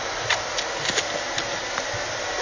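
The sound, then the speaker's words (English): A vacuum cleaner runs with a steady, fairly faint whooshing motor hiss. It holds an even level throughout, with only small bumps in loudness. “I will try then to steer the vacuum with one hand,”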